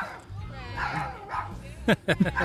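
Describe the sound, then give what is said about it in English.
A small dog barks a few sharp, high-pitched yips in quick succession near the end, following a stretch of people talking over party chatter. “and that's my dog”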